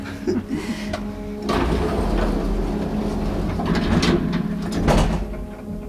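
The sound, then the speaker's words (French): Old, noisy elevator doors slide and the lift runs with a loud, steady mechanical rumble and scraping, quieter at first, then sustained and grinding. “L'ascenseur fait beaucoup de bruit, il est vieux.”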